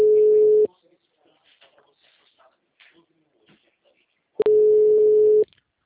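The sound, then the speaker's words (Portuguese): Ringback tone plays on a phone line while a call is being placed: a steady tone cut off at the start, a faint murmur, then a second tone burst of about a second. “Tentando ligar para ele.”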